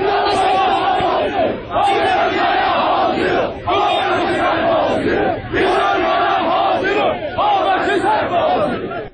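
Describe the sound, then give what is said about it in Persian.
A crowd chants at a protest gathering in Tabriz against a television program. Loud voices repeat phrases together in a regular rhythm, separated by short pauses. “صدای ویدئویی بود که روز دوشنبه در شبکه‌های اجتماعی منتشر شده و در توضیح آن آمده که مربوط به تجمع‌های روز دوشنبه در تبریز و در اعتراض به”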